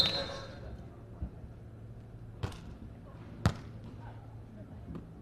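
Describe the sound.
Ball strikes during a women's volleyball match as a player serves: a few sharp, brief thumps spaced about a second apart over a steady low background rumble.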